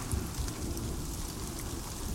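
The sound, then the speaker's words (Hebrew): Steady patter of raindrops: a dense, even hiss with a low rumble underneath. It runs unbroken through the whole stretch, with no single drops standing out and no voices. “טיפות של גשם, חליל”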